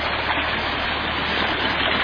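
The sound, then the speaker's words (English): A creek flows beside a walking path, making a steady, even rushing of water that is loud and continuous throughout, with no voices. “you can see the pathway now that comes through here. See the beautiful creek.”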